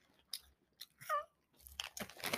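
Barbecue-flavored cheese puffs are crunched in a few quiet, uneven bursts of crisp chewing, separated by short pauses and growing denser near the end.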